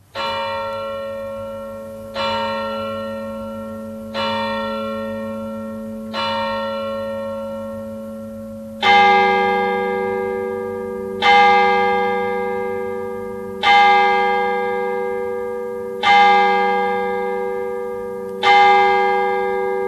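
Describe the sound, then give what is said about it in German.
Church bells ring at midnight in Bülertern: about nine slow, evenly spaced strokes with long humming decays. Halfway through, a louder, fuller bell takes over the remaining strokes. No voices are heard. “Mitternachtsläuten in Bülertern.”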